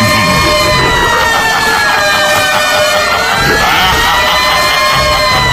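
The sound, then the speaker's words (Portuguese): A siren effect plays during a live DJ set, its wavering, sliding tones riding over loud, dense music and crowd noise throughout. “Podem soar as sirenes.”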